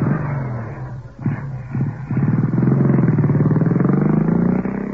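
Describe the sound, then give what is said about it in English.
A motorbike starts up and rides off: a couple of short bursts, then a steady, throbbing engine drone that holds at a fairly even pitch before easing slightly at the end. “Oh, now he's come back to his bike. He's on. He's off. He's picked the bike up and he's on again.”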